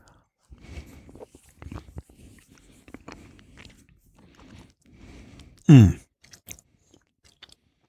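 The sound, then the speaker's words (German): Someone chews raw chocolate on the tongue, making soft, irregular crunching and mouth clicks in quiet spurts. A short, louder sound breaks in near the end, followed by a few faint clicks. “ich lege die mal auf meine Zunge und tue die ein bisschen ankauen und dann bringe ich einen Schluck Rum dazu”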